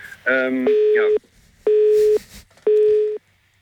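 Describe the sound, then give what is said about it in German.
A telephone busy tone sounds after a call is cut off: three evenly spaced, steady mid-pitched beeps with short silent gaps between them. “habt ihr mich rausgeschmissen? Mariola ist eingeschlafen und hat aus Versehen auf das Telefon wahrscheinlich gedrückt.”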